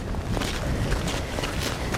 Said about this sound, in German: Wir stapfen den Skihang hoch, langsam in Richtung Kernzone des Parks.